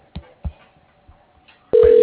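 Ringback tone on an outgoing call to a concrete company: a few soft thumps, then a steady, loud ringing tone starts near the end and holds.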